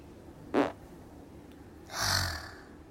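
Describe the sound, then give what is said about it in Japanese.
A deliberate fart from someone with an upset stomach: a brief, low rasping burst, then about a second and a half later a longer, softer, breathy noisy rush, with quiet in between. “なんかゲームでめっちゃ負けて落ち込んでたらお腹の調子悪くなってきたんでおなら出します。”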